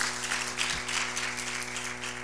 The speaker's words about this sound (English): Clap your hands for it in the name of the Lord Jesus.